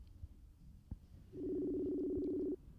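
A telephone tone while a remote call is being placed: after a faint click, a low, steady two-pitched tone holds evenly for just over a second, then stops abruptly.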